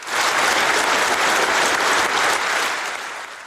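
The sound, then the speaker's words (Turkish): Government members and people's deputies applaud the new president at a Turkmenistan presidential swearing-in ceremony. The clapping is dense and loud, holds steady, then tapers slightly toward the end. “Davara qatnaşan hökümeti we pahalı halk vekilleri yadaw bakışların astına şowkunu el çarpıp täze prezidenti kutlady.”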